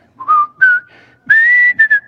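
A man whistles a TV show theme tune, a bright, clear melody of five loud notes, some short and some held, with brief gaps between them and no other sound.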